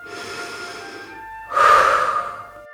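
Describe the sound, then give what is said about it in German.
A deep breath is drawn in and let out during a guided relaxation exercise, eyes closed under a blanket: a soft, airy inhale of about a second, a short pause, then a louder, breathier exhale, with no talk. “Nun schließe deine Augen. Atme einmal tief ein und wieder aus.”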